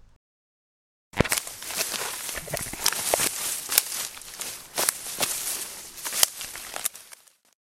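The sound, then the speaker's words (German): Footsteps crunch through fallen autumn leaves toward a leaf pile, a dense, loud rustling that starts abruptly and continues in a steady stream of many steps before cutting off. “da drüben sehe ich von weitem auch schon einen perfekten Laubhaufen. Da laufe ich einmal hin und schaue, ob ich mich darin einkuscheln kann.”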